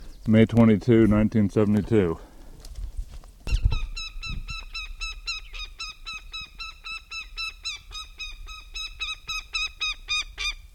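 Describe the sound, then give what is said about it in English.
A northern goshawk calls at its nest. A brief voice comes first, then long rhythmic series of rapid, harsh, repeated cackling notes go on and off at a fairly high pitch. “goshawk at nest,”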